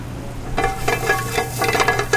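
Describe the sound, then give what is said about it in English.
Butter sizzling in a hot pan. After half a second of quiet low hum, it breaks into a steady, busy crackle and hiss that lasts to the end, with sharper pops scattered through it. “Okay, we've got a hot pan on. We're going to throw our butter in that.”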